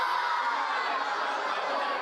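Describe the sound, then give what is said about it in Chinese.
Dense crowd chatter from nearly 400 students and teachers gathered on a school playground to watch a South Korea versus Czech World Cup group match, a continuous lively hubbub of many overlapping voices. “有学校组织近400名师生齐聚操场观赏赛事，现场气氛热烈。”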